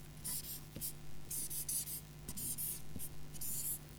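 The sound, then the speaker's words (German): Handwriting on a surface: a run of quiet, scratchy strokes in irregular bursts, faint and alone over a low steady hum. “Ich schreibe es jetzt hier mal auf.”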